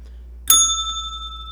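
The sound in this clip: A single bright bell ding strikes once and rings on, its clear, pure tones sustaining and fading slowly.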